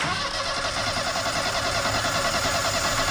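Engine running at a steady, loud mid-pitched drone during a propeller test run after repairs; the three propeller blades are out of alignment and shake at speed. No voices.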